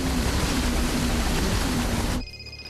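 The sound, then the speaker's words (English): Three power boats speed through a waterway with a loud, broad rushing roar of engines and spray over a steady low hum. The sound cuts off abruptly near the end. “three power boats speed through a waterway.”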